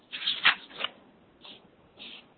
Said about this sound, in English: So that's why you hear me rustling pages right now, because I'm looking through my notes just to make sure I get it all.